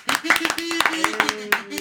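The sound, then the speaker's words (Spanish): A group of kids claps in a quick, uneven burst of many sharp hand claps while a voice talks over them. “Chicos, un aplauso porque hemos cumplido con nuestra misión de la Zona X.”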